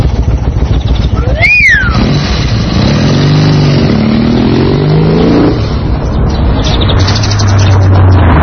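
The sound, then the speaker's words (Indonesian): A car drives past: a steady, loud engine rumble with a low droning tone that swells through the middle and then eases. A brief high chirp sounds early on. “ada mobil lewat. Mobil. Mobil.”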